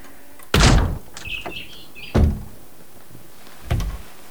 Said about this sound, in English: the back door, which is ajar and splintered as if it's been kicked in. He pushes it open with his foot.